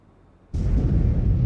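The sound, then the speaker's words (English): A distant explosion during a wartime air raid over London: a near-silent start gives way to a sudden deep boom about half a second in, which swells into a loud, sustained rumbling roar that lasts to the end. “A flash of a distant explosion picks out the London skyline.”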